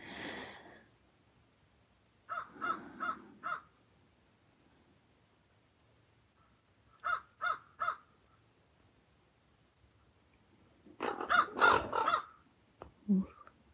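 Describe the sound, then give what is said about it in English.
Ravens call while dive-bombing, giving harsh, croaking caws in three separate bursts of a few calls each, with quiet gaps between the bursts. “Ravens are dive bombing ahead.”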